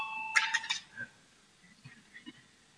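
A short electronic bell rings in a parliament chamber to call a vote. The bright, buzzing tone lasts under half a second, then faint scattered knocks and shuffles follow in near quiet.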